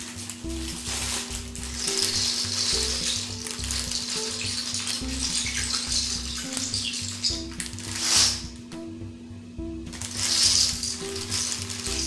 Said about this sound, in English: I have a really small pan on the stove, and it fit more than half of these noodles.